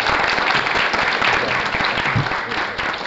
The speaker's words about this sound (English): Thank you to both of our debaters. And thanks to everyone in the audience for your questions. Yeah, let's give them a hand.